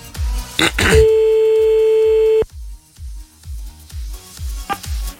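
Telephone line tone while calling someone back: a loud, steady single-pitched tone holds for about a second and a half, framed by clicks and short, repeated low pulsing bursts.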